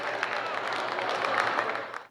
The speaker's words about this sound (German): Der Jubel ist groß bei der AfD.